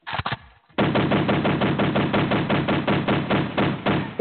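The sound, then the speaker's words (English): Gunfire sound effect: a few sharp shots open it, then after a brief pause a long, loud, unbroken machine-gun burst of rapid, evenly spaced reports runs to the end. “Shots fired. Shots fired, man.”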